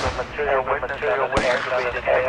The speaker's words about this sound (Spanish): Sigan disparando. Vamos soldados, sigan disparando.